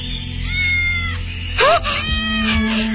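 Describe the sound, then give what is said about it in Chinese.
A small kitten trembling in a dirt pit meows: one loud, thin, high cry with a rising-then-falling pitch stands out after fainter mewing, over a steady low hum. “奶奶你听，好像有小猫叫。”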